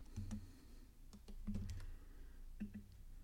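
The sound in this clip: Typing on a computer keyboard: a few quiet bursts of sharp key clicks, some separated by short pauses, with no voices.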